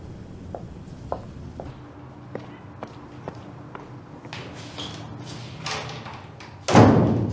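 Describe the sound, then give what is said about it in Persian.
A door is shut with a single heavy thud near the end, after a few faint clicks and knocks over a quiet background. “بفرمایید بیرون. درو ببندید.”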